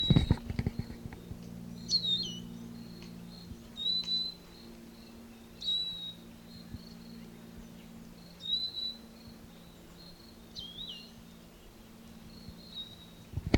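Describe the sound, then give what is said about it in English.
Bird call, a series of faint, brief, high chirps repeated at irregular intervals of a couple of seconds over a low steady hum. “That bird was collected and become specimen number 436.”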